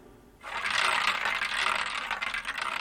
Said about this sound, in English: As the series finishes, the needle comes to the end of the record and gets stuck in that final groove